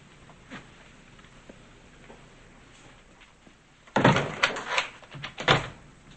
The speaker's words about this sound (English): She closes the door, unhooks the chain, and lets him in.